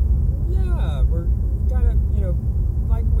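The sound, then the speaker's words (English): Steady low road rumble inside a car driving down a freeway, recorded on a phone, running continuously beneath a man's conversational talk. “The audio quality might not be that great because we're recording on my phone as we're driving down the freeway”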